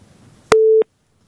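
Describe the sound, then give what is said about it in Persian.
A telephone busy tone after a dropped call: a click, then a single steady mid-pitched beep lasting about a third of a second, followed by silence. “بازم تماس قطع شد.”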